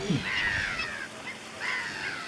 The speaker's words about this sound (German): Ah, da ist schon große Aufregung, wenn ein Greifvogel drüber fliegt.